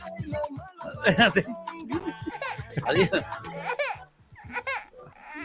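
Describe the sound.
A baby with gas fusses and cries in short, high, wavering wails and whimpers that rise and fall in pitch, with breathy catches between bursts and a brief lull near the end.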